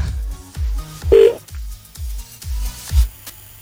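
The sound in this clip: A telephone number is dialed for a call to the United States. A short series of evenly spaced key presses gives low thuds, with at least one clear keypad tone among them.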